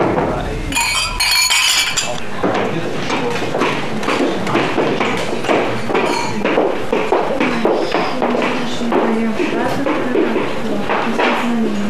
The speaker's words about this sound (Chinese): 来来来来来来，干杯干杯干杯。